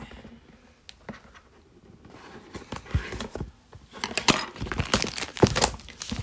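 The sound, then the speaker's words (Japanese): A protective plastic sheet is peeled off a surface with irregular crinkling and crackling, faint and sparse at first, then denser and louder toward the end. “今表面のねプラスチックのシートを剥がしてます。”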